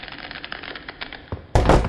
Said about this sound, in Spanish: he tropezado con una silla que había tirada aquí en medio